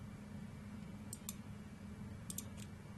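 A few soft, sharp keystrokes on a computer keyboard tap out in two small clusters. They are faint against a steady low hum, and no one speaks.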